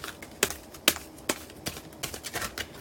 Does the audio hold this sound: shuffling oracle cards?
yes